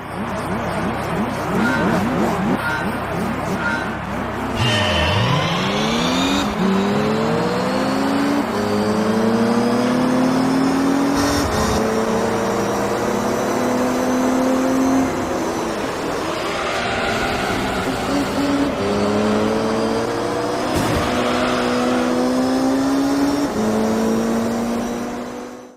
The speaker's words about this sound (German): Klingt halt wie ein Autorennspiel.